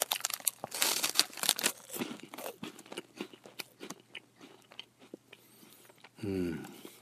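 Crisp crunching and wrapper crinkling as someone eats a corn-potage-flavoured puffed corn stick snack. Dense bursts of bites and rustling at the start thin out to scattered crunches, and a short voiced sound comes near the end.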